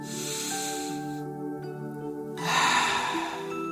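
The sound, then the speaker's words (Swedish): Deep, slow breathing during a guided relaxation before a bedtime story, heard as long, airy hissing breaths that swell and fade over soft, steady background music. “Ta några djupa och långsamma andetag.”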